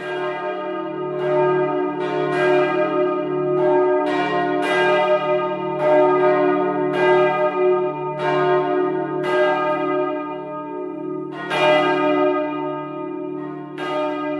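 Church bells of St. Petri ring out in many resonant strikes at a steady swinging rhythm, carried over a sustained humming tone. The peal is loud and continuous, with no voices.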